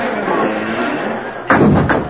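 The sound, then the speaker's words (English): Wooden gates swinging shut, marked by a sudden heavy thud midway through over a steady, noisy background. “All right, men, swing him open and keep him covered as he rides in. Hurry now. Hold him, boy. He's a big fella. Now close him, quick. Swing the gates closed. Hurry, I'll help with that gate.”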